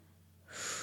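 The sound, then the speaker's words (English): A deep breath drawn in makes a quiet, airy hiss that begins abruptly midway and holds steady to the end. “So just close your eyes and breathe in very deep.”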